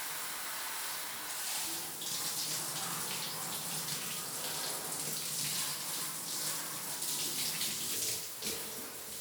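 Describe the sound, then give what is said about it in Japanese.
Water pouring in a steady, unbroken stream to rinse a person's body, a continuous hissing splash that stays even in loudness throughout, with no talking. “では、お体を流していきますね。”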